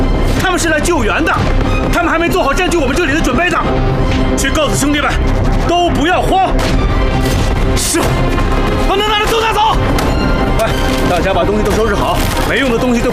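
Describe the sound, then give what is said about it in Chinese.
Retaliatory artillery shelling in a war drama: loud crashing blasts and splintering impacts repeat throughout, mixed with urgent shouting voices. “不要慌，慌什么慌？这是日本人的报复性炮击，是突发事件。”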